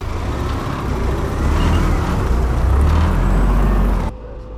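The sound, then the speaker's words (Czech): An army vehicle drives past during a simulated hazard demonstration, a heavy, steady engine rumble that grows slightly louder midway, then stops abruptly near the end. “Armádní vozidlo projíždí kolem položeného neznámého materiálu a doslova vystřeluje do země značky, které upozorňují na nebezpečí.”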